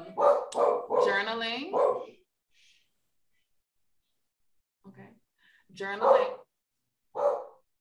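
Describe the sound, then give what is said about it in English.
A pet dog barks a few short times between stretches of people talking, the barks brief and sharp against otherwise quiet gaps. “okay, my dog wants to join the podcast.”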